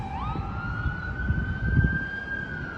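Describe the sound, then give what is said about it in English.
An ambulance siren near the White House, with a single tone that jumps upward early and then holds a long, steady wail over a low background rumble. “That's just an ambulance. Ambulances have the loudest damn sirens. They're so annoying.”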